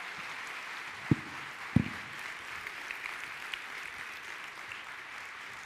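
An audience at a church gathering applauds to welcome the mayor of Brighton, Colorado. The clapping is dense and steady throughout, with a couple of sharper, louder claps early on.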